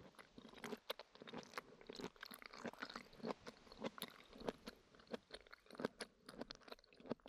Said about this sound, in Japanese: こんにゃく食べてみますかね。